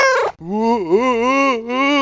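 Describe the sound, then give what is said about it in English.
A cat meows in one long, drawn-out, wavering cry lasting nearly two seconds, loud and alone, after a short sharper burst at the start. “The cat jumped down.”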